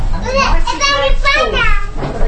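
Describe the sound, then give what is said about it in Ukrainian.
Children play inside a small building in south-east London, their high-pitched voices chattering and calling over one another continuously, with lively overlapping kid speech throughout. “Це не дитсадок, хоча дітей тут у невеличкій будівлі у південно-східному Лондоні чимало.”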